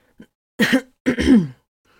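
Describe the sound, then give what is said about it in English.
A man clears his throat in two short, rough, throaty bursts after a faint click, with no speech around them. “He cleared his throat and steadied himself.”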